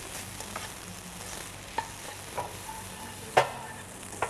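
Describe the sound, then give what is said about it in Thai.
Rice and halved cherry tomatoes stir-fry in a pan with a faint, steady sizzle. A few sharper scrapes and clatters cut through, and the loudest comes near the end. “ผัดให้มีความหอมขึ้นนิดนึงนะแล้วก็ปรุงรสด้วยซอสพริกนะคะ”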